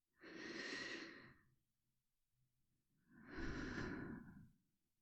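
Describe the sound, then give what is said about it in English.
A deep breath is taken on cue: two long, soft, airy breath sounds separated by a pause, each swelling and fading very quietly. “whenever you need to reconnect with these feelings, all you need to do is take a nice, deep breath.”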